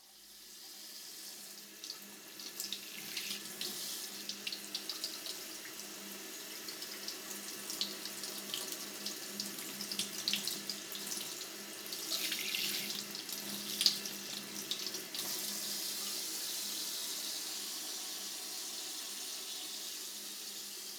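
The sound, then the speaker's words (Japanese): Warm water runs steadily over the left ear, a continuous splashing, hissing stream that keeps an even level throughout with small bubbling bursts, and no voices. “お耳がお湯で温められるのは気分がいいものですが、”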